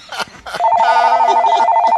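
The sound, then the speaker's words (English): A telephone rings with an incoming call, a loud, steady electronic warbling tone that starts abruptly after a short burst of sound and keeps ringing without a break. “Hey, we got a caller on the line.”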